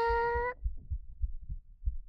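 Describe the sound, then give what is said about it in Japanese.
Heartbeat heard with an ear pressed against a chest: soft, low thumps in a steady lub-dub rhythm, coming after a brief high ringing tone at the start. “どう？聞こえた？私もドキドキしてる。”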